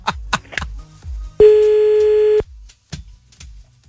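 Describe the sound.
A single steady telephone tone, about one second long, sounds while a phone is being called back. Several short low thumps and clicks come before and after it.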